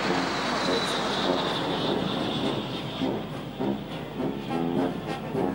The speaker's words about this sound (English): And here they are. Puma formation.